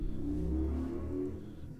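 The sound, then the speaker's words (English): A 4x4's engine revs at a drag race, a steady low rumble that holds and then eases slightly toward the end. “Got the drag races going on. Is that your son? Yeah. Is that your son? Yeah, he took off. In his 4x4? Yeah, he took off.”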